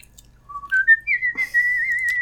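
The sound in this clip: A person whistles a short tune that steps upward through a few clear notes, then holds a high wavering note to the end.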